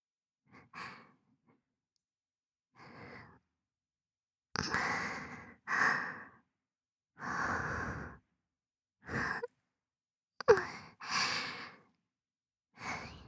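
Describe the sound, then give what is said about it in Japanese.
Heavy, excited breathing: a series of loud, rough breaths and sighs separated by silent gaps, starting sparse and coming faster and denser in the second half. “私も興奮してるよ。私の呼吸、荒いでしょ。”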